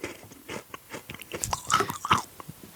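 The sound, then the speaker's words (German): Someone chews sugar with many crisp, crunchy bites in an uneven rhythm. The crunching is fairly soft and heard alone, with no talk over it. “Was mampfst du da eigentlich nebenbei? Zucker. Hört man das?”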